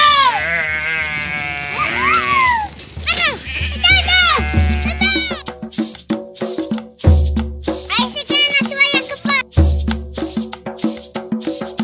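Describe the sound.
Sheep and goats bleating as they are let out of their pen to graze: many loud, wavering bleats of varied pitch that overlap one another, with a person calling out among them.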